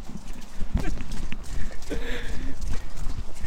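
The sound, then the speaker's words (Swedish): A ridden horse trots with its rider posting the trot, its hooves clip-clopping in a steady, even rhythm while a voice talks over the hoofbeats. “Oj vad du travar! Oj vad du rider lätt!”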